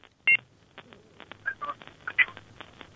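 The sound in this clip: Telephone keypad dialing tones sound as a call is placed to a call-in line: a few short, sharp electronic beeps at uneven intervals over a quiet background.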